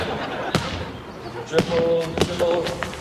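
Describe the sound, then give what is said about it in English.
A basketball is dribbled during layup practice by the basket. A few hard, hollow bounces ring out at uneven intervals while people talk nearby. “Do a couple dribbles, then you do a thing by the basket.”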